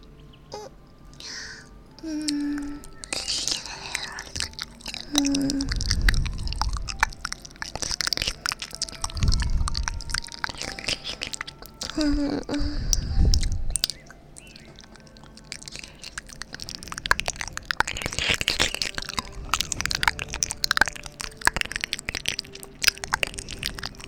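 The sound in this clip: Someone chewing and eating food, with a few crunchy, biting bursts and soft mouth sounds repeating at an irregular pace. The sounds are moderately loud, with faint background noise.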